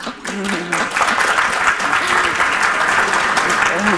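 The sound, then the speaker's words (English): Audience applauding and reacting during a book discussion event, a thick, continuous burst of clapping with voices calling and talking over it at full loudness. “I love the reactions from the audience right now.”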